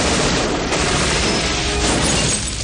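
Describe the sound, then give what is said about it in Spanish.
Gunfire erupts in a 1996 action thriller as two men shoot near a zoo entrance. A dense, loud barrage of blasts runs almost unbroken for nearly three seconds. “donde dos hombres le disparan”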